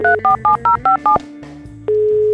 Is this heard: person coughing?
no